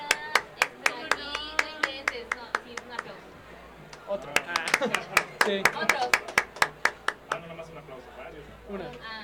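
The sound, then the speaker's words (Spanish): Hands clapping in applause during a radio program, in two runs of sharp, evenly spaced claps separated by a brief pause, with people talking underneath. “No, neta, otro aplauso.”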